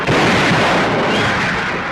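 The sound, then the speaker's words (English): Naval guns and rocket ships firing as an armada arrives for an amphibious landing in the Philippines: a dense, loud, continuous roar of blasts merging into one unbroken barrage. “Navy guns and rocket ships announce his arrival.”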